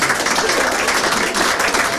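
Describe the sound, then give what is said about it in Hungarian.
An audience breaks into continuous, dense applause, with many hands clapping at a steady, even loudness from start to finish. “Megvárom a tapsot, kultúrált ember vagyok.”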